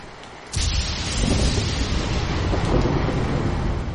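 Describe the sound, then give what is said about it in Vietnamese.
Thunder breaks out during heavy rain: a sudden loud rumble about half a second in swells into a sustained, dense roar of downpour and thunder that stays loud for the rest. “Một tiếng sấm vang, tia chớp xé rách hư không rơi vào tấm bảng trấn Nam Vương phủ.”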